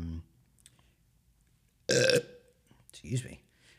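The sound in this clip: A single loud, voiced belch bursts out after near silence and lasts about a quarter second. A briefer, quieter throaty sound follows a moment later.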